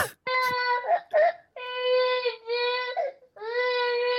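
A baby vocalizes in a string of drawn-out, strained whimpers and wailing cries, high and tonal, with short breaks and little squeaks between them. It is loud, with no other voices.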